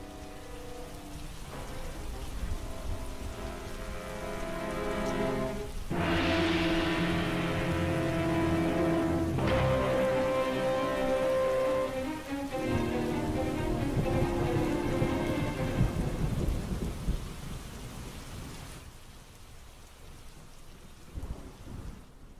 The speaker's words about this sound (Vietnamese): Bên ngoài trời vẫn cứ mưa như chút nước